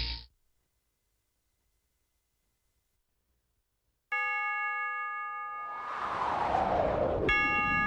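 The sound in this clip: A clock chime marking three in the afternoon rings out after a stretch of silence as a sustained tone, then strikes again. A swelling hiss of noise fills the gap between the two strikes.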